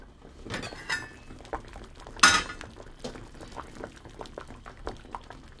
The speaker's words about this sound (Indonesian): Ubinya sudah dimasak sekitar 20 menit. Sekarang kita periksa dulu apa sudah cukup lunak.